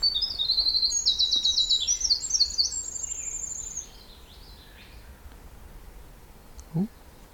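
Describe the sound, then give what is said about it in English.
A winter wren singing near sunset on an overcast evening, a long, rapid, very high-pitched cascade of tinkling notes and trills that runs for a few seconds and then stops, leaving a faint quiet background. “Okay, that was the winter wren, but I think I heard the whippoorwill again.”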